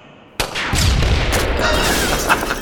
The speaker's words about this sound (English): I have to shoot her bike until it explodes. Come on, hit something.